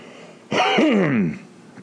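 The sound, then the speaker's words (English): One person clears their throat in a single loud, rasping burst of just under a second, its gravelly tone sliding downward as it fades out. “sorry, I gotta get this out of my throat.”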